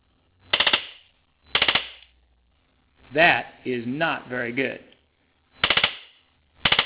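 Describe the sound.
A worn X10 Super Socket mechanical relay, switched on and off about a million times, chatters in rapid rattling bursts. Four short buzzing bursts are heard, with a man speaking between the second and third.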